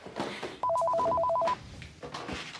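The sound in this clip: A telephone rings in one sustained burst of rapid, trilling pulsed tones lasting about a second, faint overall, with quiet background noise before and after.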